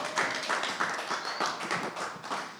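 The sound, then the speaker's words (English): A crowd claps as a comedian comes on stage at a stand-up show, brisk and full, pulsing in a quick, regular rhythm from start to finish with no talk. “All right, everybody, give it up for Catherine Cohen. Come on out.”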